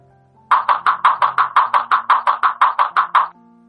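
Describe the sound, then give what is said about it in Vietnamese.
Loud pounding on a locked door: many rapid, evenly spaced knocks in a steady, insistent rhythm that stops abruptly after about three seconds. “chưa đầy 3 phút, bên tai đã vang lên tiếng đập cửa.”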